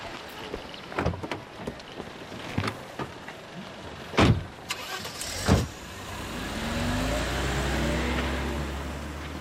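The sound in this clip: A car is set to drive off as police officers head out on a call: a few dull thumps and clunks come first, then a steady engine drone with wavering tones that holds to the end.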